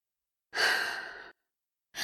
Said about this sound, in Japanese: 大きく深呼吸。